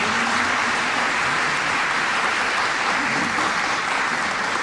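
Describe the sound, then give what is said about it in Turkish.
Audience applause for Turkish folk music saz performers: dense, continuous clapping held at an even, fairly loud level throughout, with no voices over it. “Türk halk müziği, saz sanatçılarını öncelikle gönüller dolusu alkışlıyoruz.”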